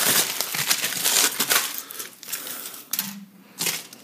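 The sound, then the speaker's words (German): Aluminium foil being unwrapped crinkles in sharp, papery crackles and rustles that come in irregular bursts, with brief quieter gaps between them and no talking. “Ich habe sehr viel Alufolie benutzt. Ja, wie Geschenke auspacken, ne?”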